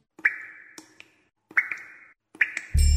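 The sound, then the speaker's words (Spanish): Water drips from a badly closed tap in three separate drops, each a clear, bright plop followed by a few smaller plinks. The drops are evenly spaced, with near silence between them, and a sudden loud, dense sound cuts in at the very end. “Un grifo mal cerrado desperdicia 12 litros de agua por minuto.”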